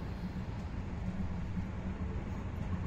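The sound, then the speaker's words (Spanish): An electric train pulls smoothly away from Valencia station in light drizzle, heard as a faint, steady low rumble with a soft hiss above it and no distinct events. “Tras la breve maniobra que, para este tren, es poco más que un cambio de pantógrafos, arranca suavemente con unos pocos minutos de retraso bajo una suave llovizna.”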